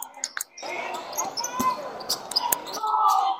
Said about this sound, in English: Hey, that's a rebound, by the way.